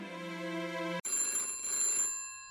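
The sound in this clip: A telephone bell rings for an incoming call. A steady tonal ring stops for a brief gap, then ringing resumes with brighter, higher tones, heard alone with no voices.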